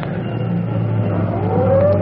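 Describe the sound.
A fire engine heads out to an alarm at night. A low, steady engine drone carries a siren wail that winds upward in pitch toward the end.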